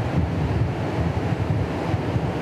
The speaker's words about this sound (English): And we are here with the river flowing and the wind.